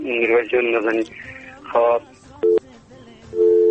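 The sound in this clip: Busy tone on a telephone line after a caller's call dropped during a radio call-in show. It follows voices as two steady, mid-pitched beeps, the first brief and the second longer and louder.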